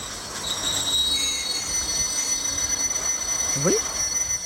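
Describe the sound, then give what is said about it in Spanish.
Train wheels squeal against the rails as a train slows in snowy country. Thin, sustained high whines run over a steady rushing rumble, with a brief squeak near the end. “¿qué es esto? El tren. Diría que nos estamos parando. ¿Aquí? ¿En mitad de la nieve? Eso parece. Y sí, acabamos de parar.”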